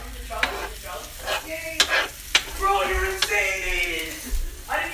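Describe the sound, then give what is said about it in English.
Stirring cheese into scrambled eggs in a frying pan: soft scraping and a steady sizzle with a few sharp clicks from the utensil, while voices talk over the cooking. “Now we're mixing the cheese with the scrambled eggs.”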